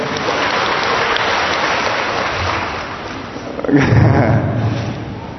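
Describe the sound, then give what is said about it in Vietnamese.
Applause from an audience during a sermon, a dense, steady wash of clapping that continues throughout and swells slightly louder in the last second or so. “cho một tràng pháo tay thưa anh chị em”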